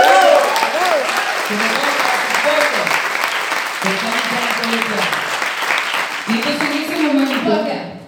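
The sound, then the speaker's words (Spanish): Audience applause at a poetry event in Colombia: dense, steady clapping that fills the whole stretch, with crowd voices calling out over it. “Y aplauso para Colombia.”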